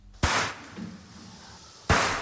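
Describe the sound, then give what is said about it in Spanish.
Two sharp gunshots at a slaughterhouse in Segovia where fawns were shot, spaced well apart, each a sudden loud crack with a quieter low murmur between them. “Así suena el vídeo que ha publicado la Fundación Igualdad Animal, que habla de 200 cervatillos disparados en un matadero de Segovia”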